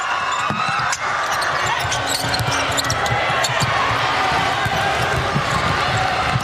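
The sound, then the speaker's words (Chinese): A basketball bounces on a court during a game that includes a double-dribble violation: rapid, repeated thumps under a steady crowd roar. “上球，这个球违例了，二次运球。”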